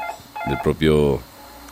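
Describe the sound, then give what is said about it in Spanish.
A telephone ringing: a short, loud burst of electronic tones, steady and alone. “A ver, se escucha ahí un teléfono, hay que contestarlo.”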